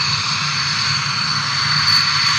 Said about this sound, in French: Une valse incessante d'avions de chasse ne cesse de décoller de la base.